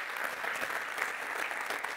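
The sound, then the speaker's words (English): Audience applause at a church gathering, a steady wash of many hands clapping at moderate volume, even and unbroken for the whole stretch. “Give the Lord a round of applause.”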